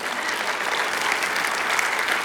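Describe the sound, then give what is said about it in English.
A church audience clapping together in a dense, even wash of applause that stays steady throughout, with no voices standing out. “And we can clap for that, that's okay.”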